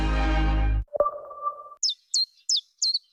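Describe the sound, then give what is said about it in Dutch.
Chiffchaff song: four short, high chirping notes, evenly spaced. Before them come a burst of music and a sustained electronic tone. “Wanneer hoor jij de eerste tjiftjaf?”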